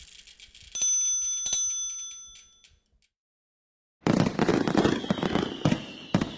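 Fireworks sound effect for an Independence Day theme: bright ringing, bell-like tones with sharp clicks, then a second of silence, then a dense burst of crackling pops and bangs.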